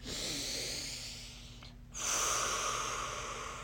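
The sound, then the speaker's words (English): A deep breath: a long, airy rush of breath, then a brief pause, then a second, slightly louder breathy sweep of air. There is no talk. “Take a deep breath.”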